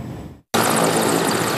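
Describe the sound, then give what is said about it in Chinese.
Two military helicopters take off from an airfield in southern Tianshan, Xinjiang, on border patrol. A loud, dense, roaring engine and rotor noise breaks off in a brief silent gap, then returns and holds steady. “两架直升机向着执行此次巡逻任务的目标点位飞去”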